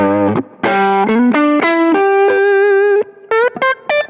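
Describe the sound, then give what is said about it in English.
Electric guitar driven through a Tube Screamer overdrive modeler, giving a loud, saturated tone: a phrase of sustained, singing notes in an ascending line, followed by a few short, clipped notes. “Then you've got your this like Tube Screamer modeler, which I think is pretty good.”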